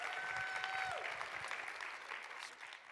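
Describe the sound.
A church audience applauds to welcome a guest speaker: a moderately loud wash of clapping that gradually thins and softens toward the end.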